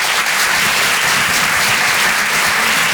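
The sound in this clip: A comedy club audience at the Apollo Théâtre in Paris applauds a stand-up comedian as he takes the stage, producing loud, steady, dense clapping that continues unbroken for the whole moment.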